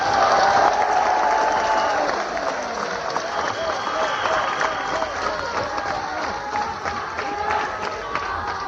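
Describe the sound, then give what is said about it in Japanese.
A concert audience at a live band show applauds and cheers in a dense, steady wash of clapping with crowd voices mixed in. The applause is slightly louder in the first couple of seconds, then stays even. “皆さん大きな声そして大きな拍手どうもありがとうございました。”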